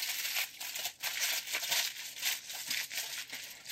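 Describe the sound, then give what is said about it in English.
Aluminium foil crinkles and crackles as it is wrapped tightly around a loaf of bread filled with a butter, poppy seed and mushroom mixture, giving many quick, dense rustling bursts with no talk. “And so we are gonna go ahead and tightly seal the bread up in foil.”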